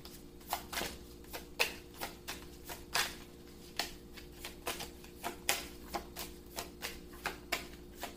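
Cards being shuffled and drawn from a deck make many crisp, short snapping clicks at a fairly regular pace, with no talk.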